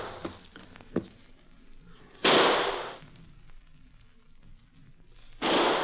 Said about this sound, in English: And those shots are too evenly spaced to be anything but a call for help.